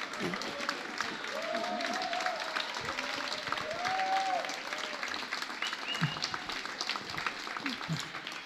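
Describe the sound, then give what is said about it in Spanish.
Applause from the crowd at a live show in a milonga dance hall, many hands clapping in a steady, moderately quiet wash for a cooperative association, with scattered voices and calls rising over it. “yo quería pedir un fuerte aplauso para la Asociación Cooperadora.”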